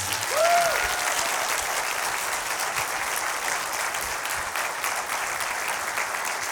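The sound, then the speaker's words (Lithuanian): An audience applauds to welcome a guest, a dense, steady wash of clapping that holds at an even level throughout, with a brief faint tonal blip near the start. “Plojimais pasveikinkim keliautojas, žurnalistas, laidų vedėjas Martinas Tarkus.”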